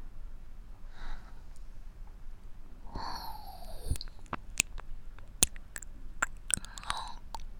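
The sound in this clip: Close chewing of food, with many crisp, sharp crunches and bites at an irregular pace through the second half, preceded by softer mouth noises.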